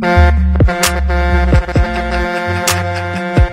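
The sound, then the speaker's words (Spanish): An 18-wheeler truck's air horn blares in a few long, deep, loud blasts, with sharp bursts of sound between them. “Hold on, let me play the horn. Ready? Check it out.”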